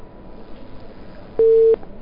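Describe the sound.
A telephone line tone sounds after a caller to a community radio phone-in has been cut off. It is one short, steady beep over low background noise.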